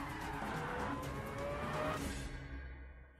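Car engine roaring in a driving video game, with a rising whine building through the middle before the sound fades away at the end.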